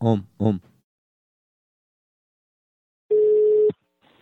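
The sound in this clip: A telephone is dialed to place a call: a short spoken phrase, a stretch of silence, then a steady single-pitch line tone lasting about half a second before cutting off, with another tone starting at the end.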